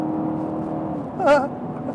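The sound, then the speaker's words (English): A car's engine drones as it comes out of turn four on a race track toward the yard of bricks, a steady tonal hum broken by one brief, louder harmonic surge midway before settling back. “You should do one more lap, and you should come out of turn four, and you should put your foot on the floor. Okay. Cross the yard of bricks at some nice pace.”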